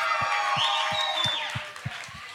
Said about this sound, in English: Come on, can we give it up for Pastor Jackson?